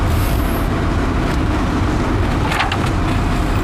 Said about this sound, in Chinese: 我开车呢